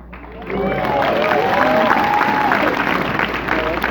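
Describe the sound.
Audience applause at a business talk, swelling in after a quiet start into dense, loud clapping with voices whooping and calling out over it, then holding steady.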